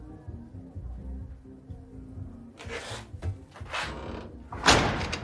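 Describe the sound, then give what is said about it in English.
A safe door being shut, heard after a quiet stretch of low hum as a few heavy thuds and metallic clunks, the last one loudest. “He shuts the safe behind him and sits down.”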